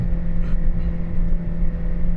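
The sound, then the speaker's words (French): A small motor runs during an experiment, giving a continuous, fairly loud low drone with a rough buzzing texture. It holds a steady level without any clear change in pitch. “En fait, le moteur va mourrir avant même qu'on fasse l'expérience.”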